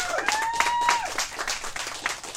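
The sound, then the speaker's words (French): An audience applauding a guest at a live event, dense steady clapping from a crowd at moderate loudness, with a voice briefly heard over it. “On peut l'applaudir, s'il vous plaît.”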